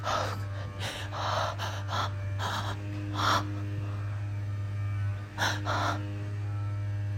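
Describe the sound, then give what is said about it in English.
Heavy, deep breathing: a series of loud, airy gasps and exhalations in an uneven rhythm, heard alone over a steady low electrical hum. “Like, I just had to do, like, a really deep breath.”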